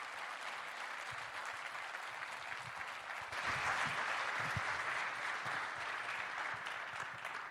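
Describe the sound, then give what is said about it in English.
Church audience applause welcoming speakers to the stage, a steady crackle of many hands clapping that swells louder partway through and stays strong to the end. “whether you're here in this room or if you're in one of our venues over in Milton, can you please put your hands together and welcome with me to the Portico stage”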